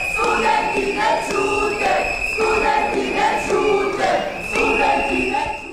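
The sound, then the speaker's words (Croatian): Students blowing shrill whistles and chanting at a city assembly in Niš, southern Serbia. Sustained piercing whistle tones sit over loud crowd chanting that swells in rhythmic bursts, with no break throughout. “Buka pištaljki i skandiranja studenata nadjačali su govornike u Skupštini grada Niša.”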